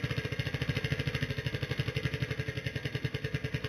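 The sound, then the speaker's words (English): A prize wheel spins in a game: a quiet, rapid, evenly spaced ticking that keeps a steady pace throughout, with no voices. “go ahead and spin the wheel. All right, here we go.”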